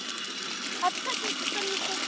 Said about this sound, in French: aujourd'hui je vais vous présenter de l'eau qui coule.